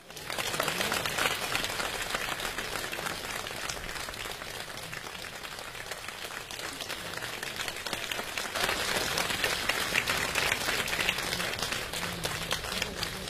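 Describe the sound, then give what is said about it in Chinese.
Warm audience applause fills a live crosstalk comedy stage show, a dense, even patter of many hands clapping that holds steady for over ten seconds without voices. “谢谢，谢谢大家的掌声”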